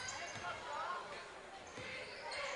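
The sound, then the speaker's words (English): A basketball is dribbled on a court during a game, with a few faint, dull bounces under a steady murmur of voices. “walking down the court with the ball dribbling”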